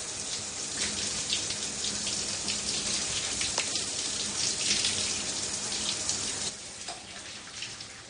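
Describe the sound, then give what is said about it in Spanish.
Shower water streams down in a steady, splashing hiss, then drops off sharply near the end as the tap is turned off, leaving a quieter residual trickle. “En la ducha, Alía sigue llorando. Termina de lavarse y cierra el grifo.”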